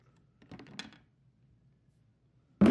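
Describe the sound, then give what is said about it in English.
Plastic clicks of a phone case being pried off with the thumbs: a quick cluster of small, faint clicks, a pause, then one sharp, loud snap as the case comes free. “He's taking off his phone case, ladies and gentlemen. He's very rough with his thumbs digging into into the crack. Oh, he's stripping it.”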